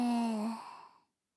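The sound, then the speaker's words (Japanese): A slow, full exhale of breath, voiced like a soft sigh, starts steady and then thins and fades away over about a second, alone and without speech. “ゆっくり、ゆっくり、吸った息を全部吐いていく。”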